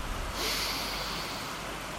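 A slow, steady inhale through the nose during a relaxation breathing exercise, heard as a soft, airy hiss that starts after a brief pause and continues to the end.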